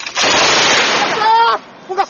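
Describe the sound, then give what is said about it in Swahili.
Heavy-weapons gunfire during a military exercise in a forest in the DRC: a loud, sustained burst of rapid fire lasting over a second, with voices rising over its tail and after it. “likiwa linafanya mazoezi katika misitu ya DRC kwa kutumia silaha nzito”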